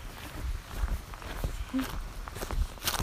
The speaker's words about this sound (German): Und jetzt laufe ich zurück, aber einen anderen Weg zurück nach Hause.